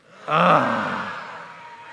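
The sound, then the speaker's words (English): A church audience groans together on cue in one swelling group groan that starts abruptly, peaks within a fraction of a second, then slowly fades over about a second and a half. “In the count of three, I want you to give me your best groan. One, two, and three.”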